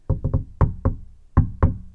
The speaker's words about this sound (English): So somebody's inside my garage having this little friendly knock on the door.